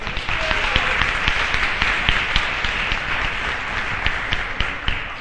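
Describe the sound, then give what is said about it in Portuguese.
An audience applauds a panelist just introduced at a seminar, with dense, sustained clapping for about five seconds and a few sharper individual claps standing out. “Bia, vamos aplaudi-la.”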